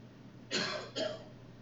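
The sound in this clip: Throat clearing from a preacher speaking to an audience, heard as two short, rough, breathy bursts in quick succession, each fading quickly before a steady quiet background returns.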